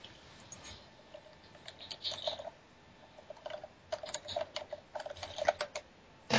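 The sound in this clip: Irregular clicks of a computer keyboard as a player types during an online tabletop role-playing session. Faint, uneven bursts of tapping over a steady wind-like hiss.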